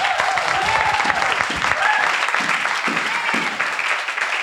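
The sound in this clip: A church audience applauds to acclaim the word of God, with loud, dense clapping mixed with cheering voices and shouts of praise, sustained at an even level throughout.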